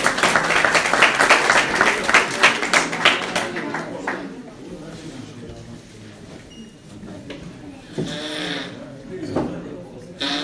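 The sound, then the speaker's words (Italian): Audience applause from an evening lecture group: dense, loud clapping for about four seconds, then thinning to softer scattered claps with some talk toward the end. “un grande applauso.”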